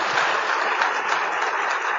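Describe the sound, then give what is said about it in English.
A church audience applauds and claps its hands for a pastor, a steady, even wash of clapping with no talk over it. “Clap your hands. Let's appreciate Pastor Poju.”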